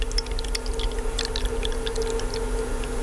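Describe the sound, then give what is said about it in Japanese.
Hot water is poured from a ceramic cooling vessel into a teapot holding tea leaves. The pour is a soft, continuous trickle with bubbly high splashes over a faint steady tone. “ちょっとなんかいいですね、この注ぐ音もね。なんか少しだけ聞いていただきましたけど、”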